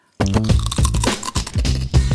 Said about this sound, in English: She's eating a wisp. It's a wisp. It's a BBQ wisp and Parmesan cheese.